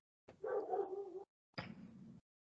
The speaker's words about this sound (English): My apologies for my dog. I don't know what set him off